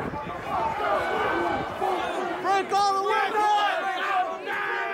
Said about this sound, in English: That was the sound of the January 6th attack on the Capitol that left five people dead